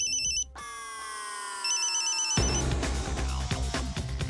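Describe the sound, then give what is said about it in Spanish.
A telephone ringtone signals an incoming call with bright, repeating electronic warbles and sustained chiming notes. A few seconds in, a denser, louder layer of sound joins it. “Llamada recibida.”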